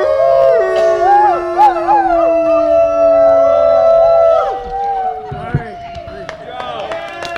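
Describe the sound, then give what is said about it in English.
Several people outdoors on a neighborhood avenue howl like wolves, with long overlapping cries wavering up and down in pitch. The howls are loud at first and thin out after about four seconds. “Howling requires a little bit of courage to get outside of yourself and not be embarrassed about somebody seeing you do that.”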